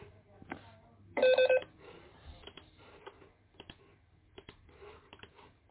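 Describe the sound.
A single short electronic telephone ring from an incoming call, a bright, loud burst lasting about half a second, stands out against an otherwise quiet background of faint clicks and small noises.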